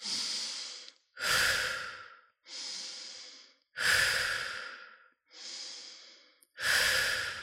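Slow, deep breathing in a guided breathing exercise: three full cycles of a long airy inhale followed by a fuller, slightly louder exhale, each breath fading out before the next with no talking.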